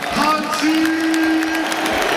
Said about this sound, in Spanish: Ovación extraordinaria.